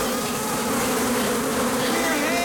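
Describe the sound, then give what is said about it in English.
A swarm of thousands of bees buzzing as they fill a dome, a dense, loud and steady drone that holds without pause. “As they reach the short corridor, the bees drop to the ground.”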